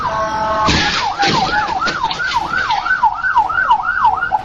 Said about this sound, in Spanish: una ambulancia atendía una emergencia a toda velocidad, pero pues su destino cambió de golpe. Las sirenas se escuchaban a la distancia.